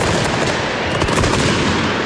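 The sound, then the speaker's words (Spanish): Flares thrown from the stands in a football stadium burst and crackle in a loud, dense, continuous rattle of rapid pops and bangs that never lets up. “Ay, están tirando a la pista recortando, no, cayó una bengala. Esto es un bombardeo. Cayó, no, tiraron, lanzaron. Desde el arco sur.”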